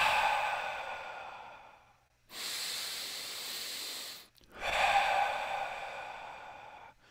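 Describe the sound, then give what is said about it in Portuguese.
Forceful breathing from a breathwork practice: three long, hissing breaths separated by short silent gaps, each loud and airy. “Em vez de bem devagarzinho, você inspira e ativa. Solta e relaxa.”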